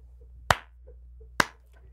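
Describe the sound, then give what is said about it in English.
Two slow, sharp hand claps, spaced about a second apart, ring out alone against near silence, each a crisp single smack. “Slow clap Anna Navarro”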